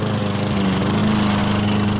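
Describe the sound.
A lawn mower engine runs at a steady, continuous drone. The low, even hum holds constant throughout with no changes in speed.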